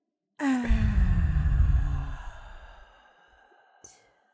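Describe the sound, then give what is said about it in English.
A deep, voiced, sigh-like breath taken during a calming group breathing exercise. It is long and full, with a steadily falling pitch, and fades into a quieter breathy tail followed by a brief soft sound. “We're going to take a deep breath in.”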